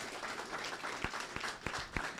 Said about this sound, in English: How about a round of applause for